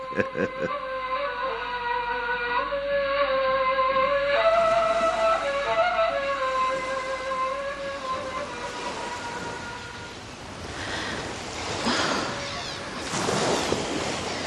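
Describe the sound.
Sea waves washing in, a broad rushing surge that builds and swells in the latter part after a sustained tonal drone fades out.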